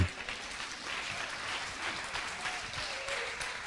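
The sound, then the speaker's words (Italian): Applause from an audience at a church service, dense steady clapping that stays fairly faint and even throughout. “Facciamo un applauso a Gesù.”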